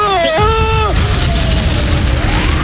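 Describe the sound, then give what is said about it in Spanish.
A staged bomb explosion sound effect: a sudden deep boom that spreads into a loud, sustained rumbling roar. “A ver, que tiene una bomba y esto va a explotar.”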